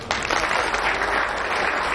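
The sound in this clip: Applause from a crowd at a Christmas community gathering in a room: dense, even clapping that starts abruptly near the beginning and continues steadily to the end.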